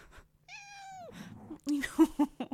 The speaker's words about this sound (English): my cat is like acting like I have cast her outside into the abyss. I have to go get her.